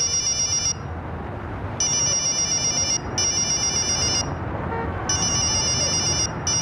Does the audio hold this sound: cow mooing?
no